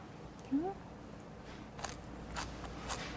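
Salted cabbage, squeezed of its brine, is chewed with a few crisp, crunchy bites, after a brief vocal murmur near the start.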